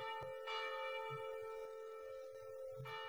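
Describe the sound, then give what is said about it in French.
Church bells ringing in Bruges, faint and sustained, with several ringing tones hanging together and a few soft strikes renewing the sound. “Il écoutait moins celle-ci, et à mesure, il entendit davantage les cloches.”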